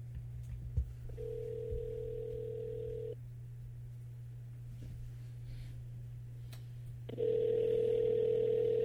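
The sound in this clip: Skype call ringing tone sounds as two long, steady mid-pitched tones separated by a gap of about four seconds, over a constant low hum, with no talking.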